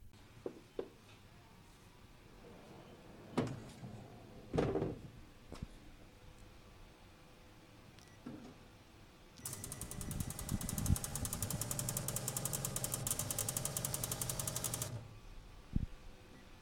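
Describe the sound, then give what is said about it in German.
Machine pretreating a black T-shirt before a white print: a few scattered mechanical clicks and clunks, then a loud, steady hissing spray that lasts about five seconds and stops abruptly, followed by a final clunk. “Dann müssen wir das mal vorbehandeln, damit das Weiß auch wirklich gut zur Geltung kommt. Wie das klingt, fragst du dich? Ganz tolle Frage, das klingt genau so.”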